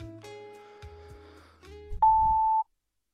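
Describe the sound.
A single steady, high-pitched answering-machine beep lasts about half a second at the end of a voicemail greeting. Quieter low tonal sounds come before it.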